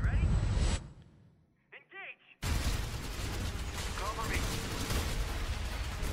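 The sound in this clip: Gunfire in a VR first-person shooter video game: a loud burst, a short lull with faint chirping tones, then sudden, sustained, dense rapid fire that stays heavy to the end.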